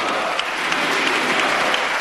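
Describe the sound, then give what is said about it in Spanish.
Prolonged applause from standing Socialist and Unidas Podemos deputies in the Spanish Congress, greeting the Transport Minister's reply. Dense, even clapping holds at a steady loud level throughout, with no pause. “Gritos de la oposición pidiendo la dimisión de José Luis Ábalos y aplauso prolongado de los socialistas y Unidas Podemos puestos en pie ante la respuesta del ministro al diputado popular Andrés Lorite”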